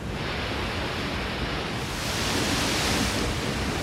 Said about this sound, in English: a colossal wave over 60 feet bearing down on us.